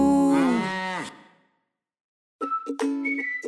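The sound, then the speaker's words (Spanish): A cow moos once, a long, loud, harmonic call that fades out after about a second, followed by a pause. “La vaca Lola, la vaca Lola, tiene cabeza y tiene cola. Y hace mu.”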